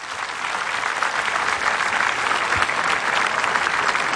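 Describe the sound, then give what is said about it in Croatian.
Steady, loud applause from a festival audience in Split for the festival orchestra: dense, continuous clapping that holds an even level from start to finish, with no voices on top. “zato vas molim još jedan jači pljesak za sve njih.”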